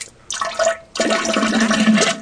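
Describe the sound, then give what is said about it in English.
Water pours and splashes while tea is being made, first in a short burst, then after a brief pause in a longer, steady gush. “Oh, I'm sorry. I'm making tea”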